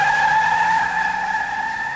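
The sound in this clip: A car speeds away with its tires skidding, giving a loud sustained high-pitched squeal that holds steady and eases slightly toward the end.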